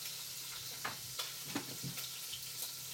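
Food browning in a pot makes a faint, steady sizzle, with scattered soft crackles and small pops rising above the hiss throughout.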